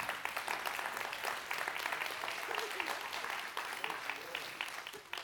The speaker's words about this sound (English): we're applauding for Christ, right?